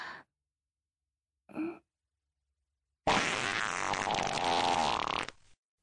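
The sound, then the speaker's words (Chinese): A long, loud fart lasting about two seconds, raspy and sputtering, following a couple of brief faint sounds in an otherwise quiet stretch. “好浓的臭味儿，是谁放屁了？”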